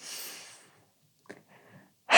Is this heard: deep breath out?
yes

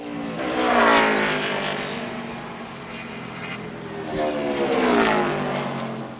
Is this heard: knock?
no

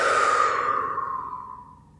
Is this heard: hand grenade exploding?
no

